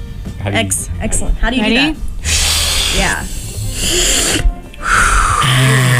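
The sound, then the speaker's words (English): Rapid breathing exercise of quick inhales and noisy exhales. Loud, breathy rushes of air alternate with voiced, throaty noises in an almost continuous stream with only brief gaps. “you breathe in really quickly, and then you breathe out, but you make a noise, just any noise, whatever that noise is”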